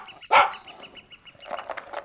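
A small dog eats its food noisily, with a sharp burst near the start and a cluster of wet smacking clicks toward the end.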